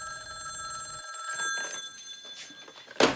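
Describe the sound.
A telephone rings with a faint, steady, bell-like metallic trill over soft rustling, and a brief louder clatter comes near the end.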